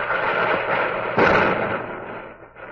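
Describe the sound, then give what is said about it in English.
Union artillery fire booms against Confederate positions at Shelbyville as a dense, continuous roar of blasts, with one louder boom standing out near the middle before the rumble slowly thins. “Within the week, through those windows, she heard the boom of artillery and the rattle of rifle fire. It was the Union artillery that rattled the windows.”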